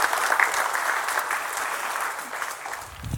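A church audience breaks into warm, sustained applause, dense clapping from many hands that holds steady and eases slightly at the end.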